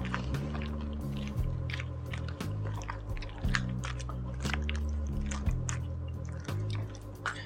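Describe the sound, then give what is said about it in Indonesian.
Noodles are stirred together with fried dumpling sticks and fried dough pieces, giving many irregular wet squishes and soft sticky smacks over a steady low musical drone. “Karena saya penganut baru diaduk ya jadi harus diaduk dulu”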